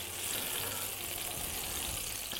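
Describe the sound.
Garlic and mushrooms fry in a pan, giving a steady, crackling sizzle at moderate loudness with a dense hiss throughout and no talk.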